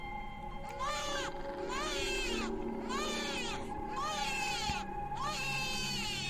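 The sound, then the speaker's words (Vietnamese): A baby boy, jolted awake at night, cries loudly in a series of shrill, piercing wails with strong harmonics, several long bursts separated by brief gasps. “Ở trong màn đêm, tiếng của thằng nhỏ lanh lảnh. Thằng cu được cái to khỏe giống bố. Tiếng của nó khóc đầy nội lực. Nó khóc gào lên re ré ngằn ngặt.”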